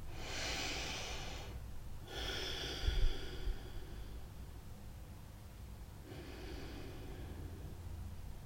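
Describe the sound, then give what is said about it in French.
Three slow, deep breaths taken during a relaxation exercise, each a soft, airy rush of inhaling and exhaling, heard alone and faint with quiet pauses between them. “Pour cela, je vous propose de prendre trois grandes respirations.”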